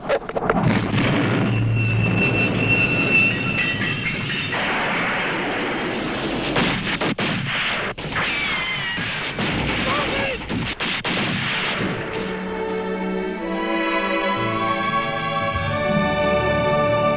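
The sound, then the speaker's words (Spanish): Film soundtrack of Arab rebels attacking a train carrying Turkish troops: dense, continuous gunfire and heavy blasts, with sustained music taking over near the end. “Es la escena en la que los rebeldes árabes, abanderados por el mítico Lorenz, atacan un tren en el que viajan tropas turcas.”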